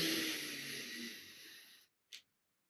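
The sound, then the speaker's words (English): A deep inhale during a breathing exercise: a long, airy rush of breath that slowly fades out, followed by a brief soft puff. “Again, inhale.”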